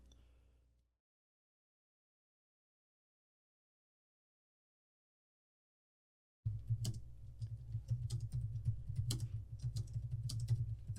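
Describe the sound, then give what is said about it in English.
Typing on a computer keyboard while running a web search: a long stretch of silence, then a few seconds of rapid, uneven key clicks over a low steady hum. “You could just type in who plays Beast in them.”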